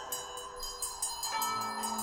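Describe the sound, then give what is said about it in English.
A bell rings in a spooky haunted setting: a quick run of repeated strikes over sustained, shimmering tones, fairly faint and with no talk. “Wizards and witches, wherever you dwell, give us a hint by ringing the bell.”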